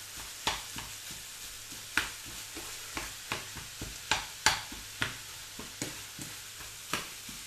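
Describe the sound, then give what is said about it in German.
Minced meat frying in olive oil in a pan and being stirred: a constant sizzle broken by many steady scraping strokes, about two per second, with no talk. “Immer das Hack noch immer rühren, damit es dir nicht anbrennt da hinten.”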